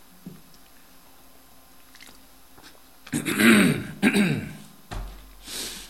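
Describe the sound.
Someone clears their throat mid-sermon with a tickle in the throat, making a few harsh, rasping bursts that stand alone after a quiet stretch.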